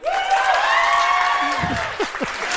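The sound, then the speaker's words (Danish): An audience claps as a live vote at a stage show. Steady applause runs throughout, with a long, high whoop riding over it and some scattered voices toward the end. “Nu prøver vi at lave en live afstemning. Hvis I synes, han er lækker, klap nu.”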